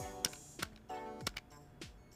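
Calculator buttons being pressed, a few sharp, light plastic clicks at an uneven pace. They are fairly quiet, with faint steady tones underneath.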